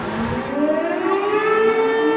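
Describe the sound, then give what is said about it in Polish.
Civil defense sirens wail at 5 pm in Warsaw during a commemoration of the uprising's anniversary, a loud sustained tone climbing steadily in pitch throughout, with no voices. “Punktualnie o 17 w godzinę W zawyły syreny, odpalono race i silniki motocykli.”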